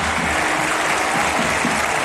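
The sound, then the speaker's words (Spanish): A football stadium crowd applauds a player at a cup match, producing dense, steady clapping that fills the whole stretch without a break. “Lo mejor del partido, estos aplausos para Iñaki Williams.”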